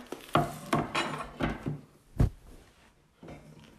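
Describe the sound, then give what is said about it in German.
A knife slices a banana for a bowl, making a series of sharp clicks and taps on a hard surface. The cuts come at an irregular pace and are fairly faint, with no speech. “Ich schneide mir noch eine Banane, die, ich tu, die tue ich auf jeden Fall rauf.”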